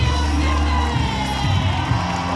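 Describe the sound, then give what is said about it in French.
Crowd cheering and shouting on the Trocadéro esplanade as French Olympic medallists return home from Tokyo amid tricolour flags, a loud, dense, continuous roar of many voices with scattered higher shouts throughout. “Des cris, des chants, des drapeaux tricolores partout sur l'esplanade du Trocadéro au moment du retour des médaillés.”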